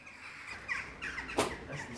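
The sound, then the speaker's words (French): Crows caw from a church bell tower, a few faint, harsh, raspy calls over a steady background noise. “Ah oui, c'est les oiseaux du clocher. Ouais, mi-corneille.”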